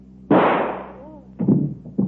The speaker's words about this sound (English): Shot herself.